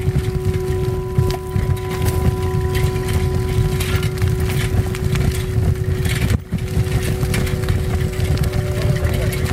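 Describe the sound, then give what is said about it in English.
A bicycle rattles as it is ridden along a smooth trail: a dense, continuous clatter with a steady underlying hum, briefly dipping once before the rattle resumes. “What you're hearing now is on my bike on the smooth trail. And even still, it's rattling quite a bit.”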